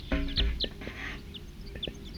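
Wild birds calling: a few short, high chirps scattered across the stretch, fairly faint, over a steady low hum with no voices.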